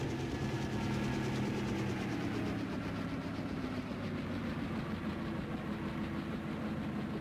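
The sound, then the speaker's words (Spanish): A helicopter descends slowly and vertically onto the stern deck of a ship, its large rotor blades driving wind downward; a dense, steady engine roar with a faint rapid chop stays at an even loudness throughout. “El moderno aparato volador desciende lenta y verticalmente, justo sobre la cubierta del barco en la sección de popa. Sus grandes aspas lanzan fuertemente el viento contra los marineros sorprendidos.”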